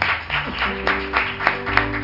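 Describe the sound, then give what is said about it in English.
A church audience clapping hands in praise during a Wednesday night service, keeping a steady even beat over sustained instrumental chords, at moderate volume. “Let's give him a hand clap for praise.”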